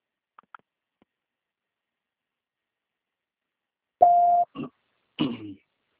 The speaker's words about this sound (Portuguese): Please leave your message after the tone. When done, hang up or press the pound.